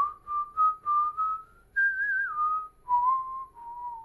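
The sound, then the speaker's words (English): Someone whistles a tune while walking, a clear, pure tone moving through many short notes. The pitch jumps up midway, then steps back down toward the end, with no talking. “So what I was doing as I walked along, I tend to whistle.”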